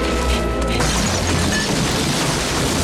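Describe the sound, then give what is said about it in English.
Stalactites falling and crashing in a cave make a loud, dense, continuous roar of rubble with a heavy low rumble. It runs steadily without separate distinct impacts. “Stalactites keep falling, but they run through unharmed back into the open air.”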